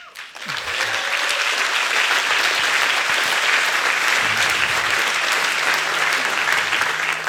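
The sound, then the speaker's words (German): Sustained audience applause fills the whole stretch, loud and steady from start to finish, a dense wash of clapping with no voices over it. “vielen Dank, der Applaus, der gehört euch selber”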